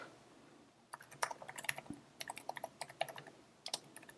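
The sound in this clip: Rapid, irregular keystrokes on a computer keyboard while someone writes a Core Data teardown method in an app delegate file. Many light, crisp clicks come in quick bursts at a fairly low volume, with no talking.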